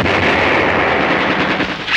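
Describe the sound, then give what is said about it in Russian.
Rapid gunfire in a war film battle scene, with shooting at German soldiers: a loud, dense, unbroken rattle of shots that fills the whole stretch without pauses. “стреляет по немцам, привлекая все внимание к себе. Бросает гранату.”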